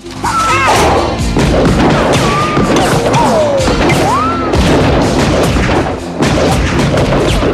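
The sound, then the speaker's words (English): Heavy gunfire from a film scene: loud, dense bursts and booming impacts overlap almost without pause for several seconds, with many sharp cracks layered on top. “Under heavy fire, Joey flees.”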